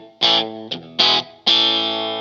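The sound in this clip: Electric guitar notes from a 2023 Squier Paranormal Esquire Deluxe with a humbucker pickup: four bright chords struck in turn, with short gaps between them. The last chord rings on and slowly fades.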